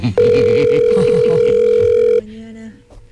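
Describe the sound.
An unanswered phone call produces an electronic telephone tone, a steady, loud beep lasting about two seconds that then drops to a lower, shorter tone, with a voice talking underneath.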